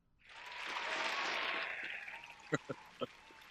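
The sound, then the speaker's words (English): Hand clapping standing in for live applause rises quickly into a dense, even patter that thins out, and a few louder separate claps finish it. “Hand applause, really? Well, I didn't have time to record live applause”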